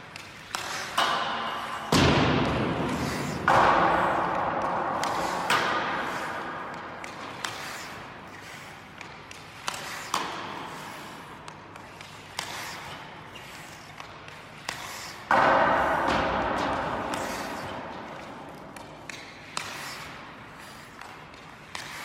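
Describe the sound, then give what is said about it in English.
Hockey shots: many sharp stick-on-puck slaps, each followed by thuds and ringing pings, repeating at an irregular pace with short pauses between shots. “So if you're thinking to yourself, that's just the sound of somebody taking hockey shots,”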